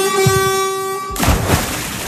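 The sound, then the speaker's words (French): A Paris RATP bus sounds its horn in one loud, steady, sustained note lasting about a second, then cuts off into a broad, louder rumble of road noise. “je vous emmène à bord d'un bus de la RATP”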